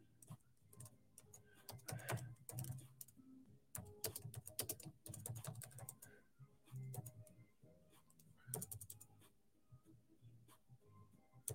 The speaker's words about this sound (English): hold on, let me just type this.